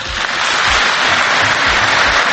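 An audience breaks into applause, a dense, loud, even wash of clapping from many people that continues without a break.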